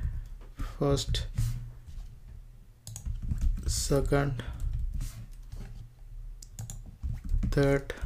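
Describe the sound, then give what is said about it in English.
Typing on a computer keyboard: many quick, irregular keystroke clicks over a low steady hum, with brief voice sounds breaking in at a few moments. “Okay, now I'm gonna just type 1st, 2nd, 3rd.”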